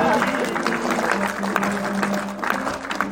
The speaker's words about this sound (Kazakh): екі дүркін шапалақ құрыңыздар